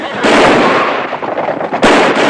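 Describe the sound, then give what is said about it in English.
Pistol gunshots as a gang fires indiscriminately at townsfolk and rides off: a loud, dense barrage of cracking shots that eases briefly, then a second loud burst breaks in near the end. “The gang shoots off their pistols at the townsfolk and ride off in a hail of indiscriminate bullets.”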